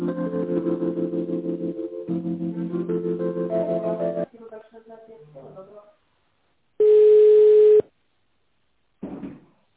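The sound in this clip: A telephone line tone plays while a call is being transferred: one steady, clear tone lasting about a second, after several seconds of pulsing tonal line sounds.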